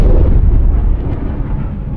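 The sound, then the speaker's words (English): Sonic boom from a Concorde supersonic airliner: a loud, deep rumbling roar that fills the whole clip, heavy in the low end and slowly easing without breaking, with no voices. “That sound you just heard is sonic boom.”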